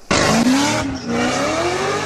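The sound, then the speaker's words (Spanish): Tires squeal and engines roar as cars speed, burn rubber and do stunts in illegal street gatherings in southern California. The sound is loud and continuous, with a brief dip midway and a rising whine. “Autos a toda velocidad, quemando llanta o haciendo piruetas.”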